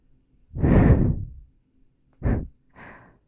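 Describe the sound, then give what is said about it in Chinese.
Gentle breaths blown into the ear, three soft airy puffs: one long, hushed exhale, then two shorter ones, the last the faintest, with no talk over them. “呼吸的节奏吗？温柔的气流进入你的耳朵，”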